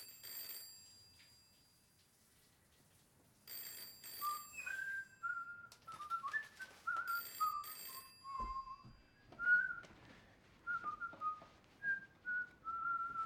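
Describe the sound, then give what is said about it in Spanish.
A person whistles a lively tune of many short notes that hop up and down in pitch, fairly soft and mostly alone. “¿cómo puedes silbar?”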